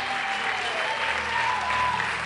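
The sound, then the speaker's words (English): A church audience claps during a sermon, a dense, steady wash of applause that holds at an even level from start to finish. “Please clap for Jesus properly this morning.”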